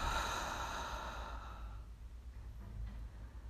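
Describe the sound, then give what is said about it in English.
A slow exhale through the mouth, a soft, breathy sigh that lasts under two seconds and tapers into quiet. “Breathe in through your nose. Hold. Breathe out through your mouth.”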